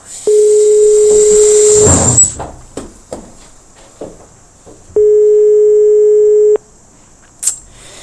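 Telephone line tone on an unanswered call to a museum: two long, steady ringing tones, each about a second and a half, separated by a pause with faint clicks and rustling.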